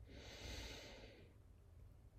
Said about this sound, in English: Take a deep breath in.